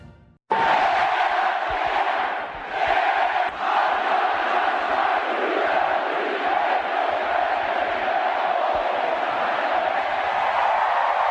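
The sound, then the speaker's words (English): A stadium crowd of about 20,000 in Omaha roars as a college baseball national championship is won. The loud cheering swells in at once and holds steady for the whole stretch, dense with whoops and shouts. “Just 20,000 of our friends in Omaha who made a little noise as the Ole Miss Rebels have won the National Championship of College Baseball.”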